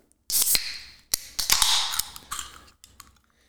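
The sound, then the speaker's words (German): A can of White Claw natural lime hard seltzer is cracked open with a sharp metallic pop and bright fizzing hiss, followed by a few more clicks and crinkly bursts that fade out. “Sollen wir das mal aufmachen jetzt? Mal aufmachen. Also wir trinken hier White Claw, Hart Seltzer, Natural Lime.”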